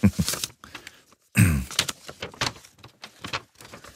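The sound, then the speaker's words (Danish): A light-blue paper envelope is opened, with a run of short, crisp paper crinkles and rips in uneven bursts and brief pauses between them. “Der ligger også en lysblå kuvert i rummet. Den må jeg også gerne åbne. Nu åbner jeg den anden, så kan du åbne den.”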